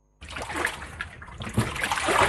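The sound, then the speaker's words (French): Water splashing and sloshing in tannery pits where zebu hides soak in a mix of water and bark: a steady churning wash that starts abruptly and carries on with small surges. “Dans le quartier d'Anjaïsour, une vingtaine de pots de zébu sont immergés dans un mélange d'eau et d'écorce”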